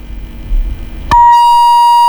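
A phone call disconnects with a sharp click, then a steady, loud mid-pitched beep tone holds to the end. Faint line noise comes before the click.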